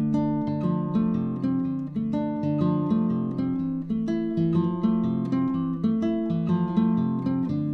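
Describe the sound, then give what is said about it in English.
A simple kumbango rhythm is fingerpicked on plucked strings with the thumb, index and middle fingers. The clear, ringing notes repeat in a steady, even pattern, with no voice. “here's a really nice and simple kumbango. Sounds like this.”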